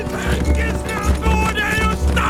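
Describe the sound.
Horses galloping, a dense clip-clop of hoofbeats in a fast, steady rhythm, loud and continuous over a thick tonal background.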